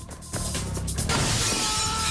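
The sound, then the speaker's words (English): A glass window of an apartment building shatters as a man crashes through it. A sudden loud crash breaks in and is followed by a continuous spray of bright, splintering glass. “He crashes through the window of the apartment building opposite.”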